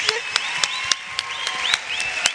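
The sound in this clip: A church audience applauds and cheers to welcome a guest speaker. Steady, dense clapping runs throughout, with sharper claps standing out and whistle-like tones and voices rising above it.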